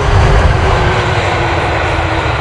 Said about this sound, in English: Touchdown in Sydney, 19 hours and 16 minutes after takeoff from New York.